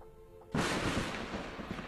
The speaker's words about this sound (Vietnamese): Đúng lúc này ở trên trời có một tia sét đánh ngang kèm theo tiếng sấm vang dội.